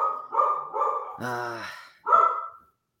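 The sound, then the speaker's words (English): A dog barks several times, with one longer, strongly tonal bark in the middle, moderately loud against a quiet background. “It sounds like the dog doesn't like that Southampton bet”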